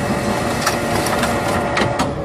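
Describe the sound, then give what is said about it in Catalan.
A printer runs as it prints out a sheet of paper, giving a loud, steady mechanical whir. A few rhythmic grinding surges pass through the sound as the page feeds. “És el so d'una impressora, d'allà surt un paper amb la imatge de Mourinho”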